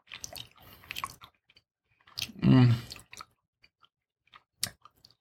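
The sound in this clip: Someone chews chocolate with an almond and soft fruit: a few crunchy bites and moist munching, a brief louder voiced hum in the middle, then sparse faint clicks.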